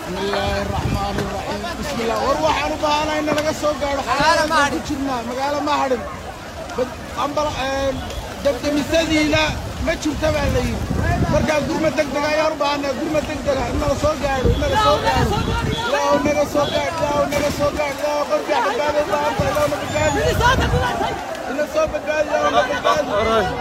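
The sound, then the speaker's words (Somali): Ambience at the site of a fire, with a steady hubbub of many overlapping voices and constant wind noise buffeting throughout at an even, fairly loud level. “haddaba jawiga goobta uu ka kacay dabka ayaa aha sidan”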